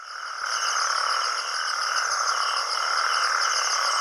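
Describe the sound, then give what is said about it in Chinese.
Male natterjack toads call together in a pond at night after heavy rain in the Mediterranean region. The breeding chorus is a loud, continuous wall of overlapping rasping trills, steady throughout with no voices. “这是雄性黄条背蟾蜍求偶的叫声。”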